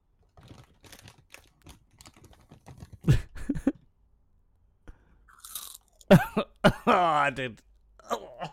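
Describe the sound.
Crisps from a packet left open about 18 hours being eaten for ASMR. Soft, muted crunches and chewing come in irregular bursts, separated by quiet gaps and some talking.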